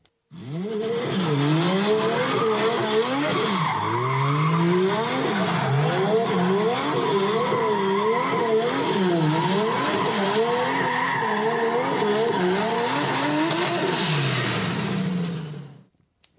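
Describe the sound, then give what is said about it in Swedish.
Mercedes M104 engine revving, a loud continuous roar whose pitch repeatedly climbs and drops in quick waves for about fifteen seconds, with no voices. “En Mercedes M104, precis.”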